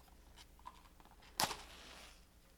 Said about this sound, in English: We will light the candle. It will sit by our mics.